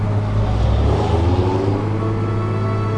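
A jeep drives along tangled rural roads, its engine giving off a steady low rumble that swells slightly early on and then settles into an even drone. No voices are heard.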